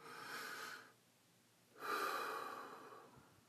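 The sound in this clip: A deep breath: one long, soft inhale, a short pause, then a slower, longer exhale, quiet and alone.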